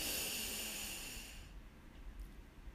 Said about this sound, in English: So let's do it. Deep breath in